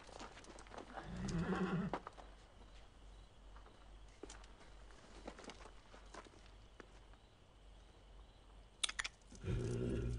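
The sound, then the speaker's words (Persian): A horse whinnying near the start and again at the end, with scattered hoof clip-clops in between, at moderate loudness and without talk. “عالی شد، اسب منو دزدید. البته که اسبمو دزدیده.”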